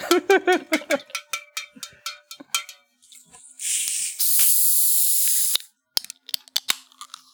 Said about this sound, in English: Let's crack open a Faygo.